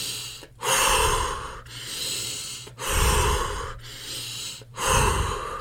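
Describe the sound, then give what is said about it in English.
Breathing exercise done several times in a row: a quick nasal inhale followed by a loud, forceful push of air out through the mouth, each long breathy rush separated by short quiet gaps. “It's a long nasal inhale through into your diaphragm rather quickly. So you want to get all the way in, and then you're going to do a loud push out your mouth. And you actually do that several times.”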